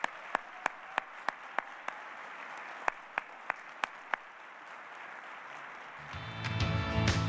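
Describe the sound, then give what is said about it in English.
Audience applause fills a US Air Force ceremony, a dense steady clatter of many hands with sharp individual claps standing out, swelling louder and fuller near the end. “So thank you. One more hand.”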